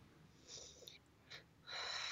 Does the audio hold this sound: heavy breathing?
yes